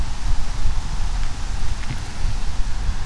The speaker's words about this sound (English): There's nice cool wind blowing now. Maybe you can hear it.